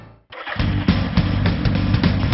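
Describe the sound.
Engine of a new, nationally made motorcycle starts abruptly after a short quiet moment, then runs with a rough, throbbing rumble and a few light surges in loudness.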